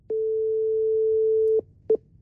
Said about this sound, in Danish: Så tænkte jeg på, at vi lige skulle prøve at ringe til skat.